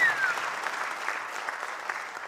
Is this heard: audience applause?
yes